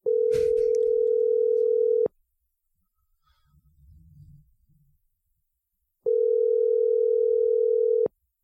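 Ringback tone of an outgoing telephone call: two long, steady, loud tones of about two seconds each, separated by a long pause that holds only a faint low rumble.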